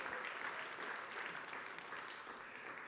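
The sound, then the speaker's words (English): Audience applause welcoming a guest on stage, a steady, quiet wash of many hands clapping with no clear breaks. “Yeah, let's give Dave a hand. Come on, welcome, Dave.”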